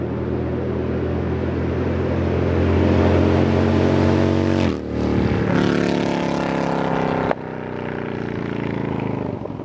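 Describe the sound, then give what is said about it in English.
Harley-Davidson motorcycle engine on a dealer demo ride, a loud, steady droning rumble whose revs climb gradually, dip briefly, then build again. “All right, an appropriate sound for this topic. Demo rides were in town from Harley Davidson, so I went over to my local dealer here on Independence Boulevard”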